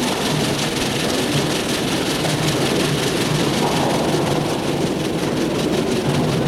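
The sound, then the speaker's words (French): A train pulls into a station with a loud, continuous heavy rumble and roar that holds steady throughout, without distinct breaks. “Le train arrive en gare.”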